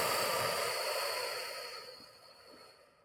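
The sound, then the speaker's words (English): A deep breath let out through the mouth during a relaxation exercise: one long, steady, breathy rush of air that slowly fades over about three seconds, heard alone. “In through the nose. Hold it. Breathe out all that tension through the mouth now.”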